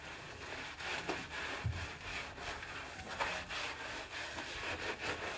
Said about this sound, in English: I like to take this cloth that I have and kind of just rub it around the bottom of my feet.